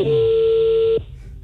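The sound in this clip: A telephone tone while a call is being dialed, one steady, fairly low beep lasting about a second before it cuts off with a brief downward slide, leaving faint background noise.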